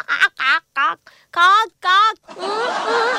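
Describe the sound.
A human voice imitates a crow cawing: several short, harsh, nasal caw-like calls in quick succession, then one longer drawn-out call.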